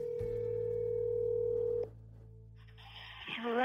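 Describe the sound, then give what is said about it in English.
A telephone dial tone hums steadily while a call is placed, an even low tone that holds for nearly two seconds before cutting off, followed by quieter line noise and brief higher tones near the end. “You just dial. Let's just try to get her right now real quick.”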